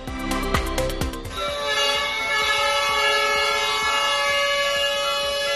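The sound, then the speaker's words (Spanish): Fire brigade sirens and horns blare at a regional firefighters' protest outside a provincial government building. A few short stacked horn blasts at the start give way to a loud, continuous, steady wail. “Y este es el sonido de los bomberos comarcales que esta mañana se manifestaron a las puertas precisamente de la Diputación”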